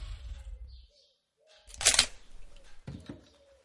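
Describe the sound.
Camera shutter firing while photographing a dollhouse: a sharp crisp click burst followed about a second later by a softer second click, both faint and with nothing else around them.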